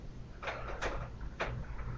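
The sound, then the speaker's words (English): Door being slowly shut: a few faint, soft creaks and knocks in close succession over quiet background noise. “Slowly shut the door.”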